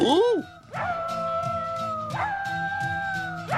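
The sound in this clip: Dog barks and howls are sampled into a pop song, with pitched yelps and sweeping howl-like notes carrying the melody over a steady rhythmic beat.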